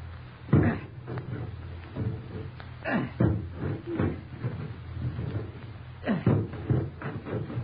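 An axe chops through the locked door of a room: several heavy, booming blows land at irregular intervals, each a dull splintering thud, with no voices over them.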